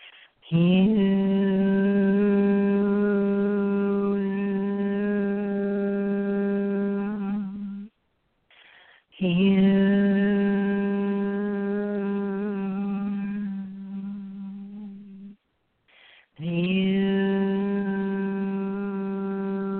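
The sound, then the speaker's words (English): A group chants the word Hue in unison during a meditation, each chant a long, low, sustained tone held for several seconds. Brief breath pauses separate three drawn-out chants, and the last one is cut short. “And then we chant the word Hue, and it sounds like this.”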